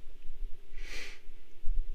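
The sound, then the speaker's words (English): One sharp intake of breath, a brief breathy hiss rising and fading within about half a second, heard alone against a quiet background. “I don't know why I took a breath like that. Jesus. It made me sound emotional.”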